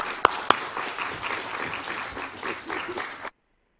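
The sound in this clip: Audience applause welcomes a speaker onto the stage in the morning. The steady clapping has a couple of sharp, loud claps near the start and then stops abruptly.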